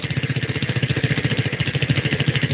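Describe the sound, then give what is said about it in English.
A prize wheel spinning, its pointer ticking in a fast, even rattle of clicks that keeps a steady pace throughout, loud and alone with no voices. “Let's go ahead and let her spin the wheel.”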